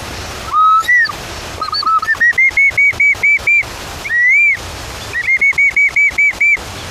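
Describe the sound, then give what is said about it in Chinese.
A bamboo instrument imitates a bird call with clear, high whistled notes. Long sliding tones alternate with quick runs of many short, bright chirps, and the pattern is heard twice, loud and without voices. “竹子是一个非常好的拿来做自然乐器的一个材料。模拟鸟叫的声音，还有另外一种鸟”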